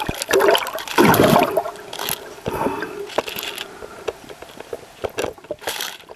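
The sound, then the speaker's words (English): Watery splashing and swishing around a Mary River turtle, also called the punk turtle: a loud churning surge near the start, then smaller splashes and sharp clicks, with no voices. “Punk turtle. That's the name that's been given to the Mary River turtle.”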